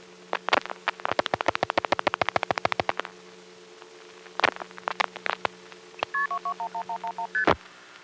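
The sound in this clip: Touch-tone dialing of a telephone call to 221-1111 in the 212 area code: a rapid run of short, clipped beeps, then a few scattered bursts and a closing series of stepped electronic tones.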